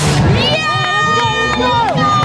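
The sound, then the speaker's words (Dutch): Spectators cheering on runners at the start of a 10 km run, a dense, continuous crowd roar with loud shouted cheers on top. “Jullie staan hier lekker aan te moedigen.”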